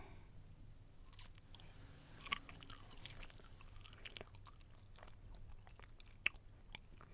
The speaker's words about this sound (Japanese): さっきもやった時も思ったんですけど、めっちゃ硬いんですよねこれ。うい、聞こえるかな。じゃあいただきます。